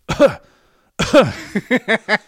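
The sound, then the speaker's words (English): A person imitates a movie character's sudden cough with two short, harsh coughing bursts, followed by a few quick, rhythmic chuckling pulses. “nobody is gonna cough in a movie unless they are gravely ill.”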